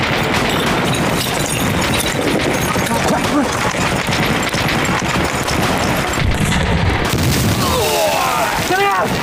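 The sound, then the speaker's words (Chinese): Heavy artillery cannon fire in a Chinese civil war battle scene forms a loud, dense, unbroken barrage of booms and blasts, with a voice shouting near the end. “不好了，共军大炮了！ 啊， 共军采用大炮， 共军还有大炮”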